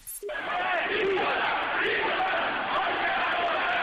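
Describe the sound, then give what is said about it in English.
Roaring, shouting protest crowd during violent clashes with police in Tehran, Iran, a continuous loud wall of yelling voices after a brief opening cry. “That's the sound of violence in Iran's capital of Tehran over the weekend as police reportedly killed somewhere between 8 and 15 protesters yesterday.”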